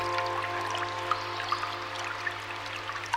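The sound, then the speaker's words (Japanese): Flowing water rushes steadily with occasional light drips, set against a sustained low tonal hum, with no talk. “流れる水の音に心を傾けながら、頭を空っぽに、”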